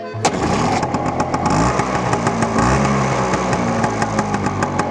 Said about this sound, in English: We ride the Vespas.